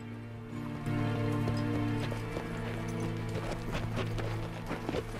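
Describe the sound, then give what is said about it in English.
Hooves clip-clop steadily as three riders approach on horseback, a rapid, continuous patter of many hoofbeats at an even, moderate loudness. “Marion, the sheriff, and a third man approach them on horseback.”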